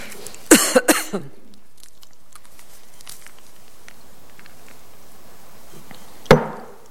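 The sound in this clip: Coughing from a throat tickle: a quick cluster of a few sharp, loud coughs, then a long quiet stretch and one more cough near the end.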